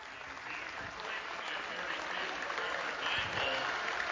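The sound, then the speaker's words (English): Crowd applause at a basketball game as a player leaves the court: a steady, dense wash of clapping that holds for the whole stretch and swells slightly toward the end. “DeVries gets a round of applause as he leaves the ball game.”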